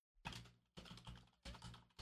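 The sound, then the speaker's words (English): Keyboard typing while writing an email: four short bursts of clicking keystrokes, quiet and alone, with brief gaps between them. “I'm writing a nasty email to DoorDash.”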